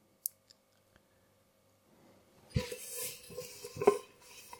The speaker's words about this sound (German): So, jetzt habe ich hier den großen Topf zum Abtrocknen.